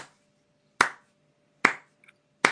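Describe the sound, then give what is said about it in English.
Three sharp, isolated claps ring out off to the side during a tabletop fantasy game session, spaced evenly with near-silence between them and a faint tiny tap before the last. “There's a little bit of sort of clapping coming from...”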